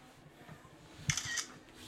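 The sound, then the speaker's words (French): A camera shutter fires while photographing an envelope, giving a single brief, faint double click in otherwise quiet surroundings. “Je prends une photo de l'enveloppe pour célébrer mon acte héroïque pas complètement désintéressé.”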